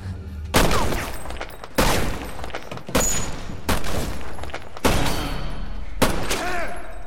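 Gunfire blasts into darkness, six sharp, loud shots spaced roughly a second apart, each with a booming crack and a short reverberant tail.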